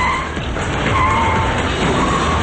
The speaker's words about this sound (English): the truck slides into a guardrail, spilling ice from the styrofoam cooler in the back.